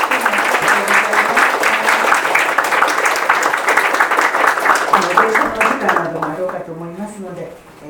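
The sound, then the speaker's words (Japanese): An audience applauds a lecturer at the close of a question session, many hands clapping in a loud, dense patter that holds steady for several seconds and then thins and fades toward the end. “先生に、拍手をお願いいたします”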